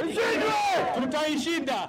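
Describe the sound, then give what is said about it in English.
A crowd from Nairobi's Somali community chants at a solidarity rally against terrorism, many voices shouting together in a loud, sustained, unified cry. “But on Friday, Nairobi's Somali community rallied in a show of solidarity against terrorism. Crowd chanted, "We will defeat them,"”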